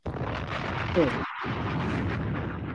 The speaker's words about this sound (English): Can you drop a bomb for Tito's? For sure, though. I will do that right now.